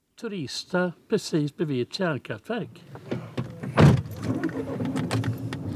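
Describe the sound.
A car drives along narrow forest paths after people talk: a dull thump lands, then a steady low engine hum with a faint tonal drone carries to the end.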